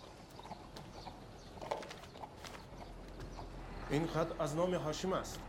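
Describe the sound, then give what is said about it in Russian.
A donkey led by hand through a doorway makes a faint, uneven clip-clop of hooves over quiet background noise. “Он ведет с собой ишака с навьюченной перекидной сумой.”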